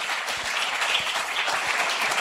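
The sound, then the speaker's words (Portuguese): Applause at a church worship gathering: dense, steady clapping from a crowd, evenly loud and unbroken for about two seconds. “Palmas para Jesus, né?”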